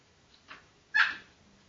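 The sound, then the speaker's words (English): A dog barks in short, sharp bursts, a softer yelp followed by a louder bark, the dog agitated and restless at bedtime, with no talking. “you probably hear my dog in the background going crazy because I'm too loud for him, and she wants to go to sleep.”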